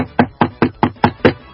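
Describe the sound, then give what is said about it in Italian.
Knocking on a door, six quick, even raps in a steady rhythm, each sharp and fairly loud. “Bussano, cosa facciamo? Apriamo o non ci siamo per nessuno?”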